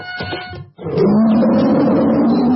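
A tiger lets out a deep, rough roar that swells loud after a short burst of other sound, then holds as a steady, growling rumble for well over a second.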